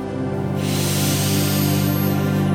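Deep inhale during a guided breathing and deep relaxation meditation, a long, steady airy rush that swells after a moment and holds, set against a soft sustained low drone.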